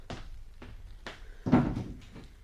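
A door is closed behind someone leaving, heard as several soft wooden thuds and knocks. The loudest, fullest bump comes past the middle, and all of it stays quiet.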